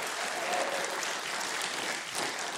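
A studio audience applauds a band on a show, a dense, steady wash of clapping that stays level from start to finish.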